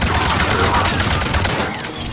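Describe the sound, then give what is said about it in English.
Rapid gunfire in a video game, shooting through the floor, a dense, loud, unbroken barrage of shots filling the whole moment. “That's cool. We can shoot through the floor.”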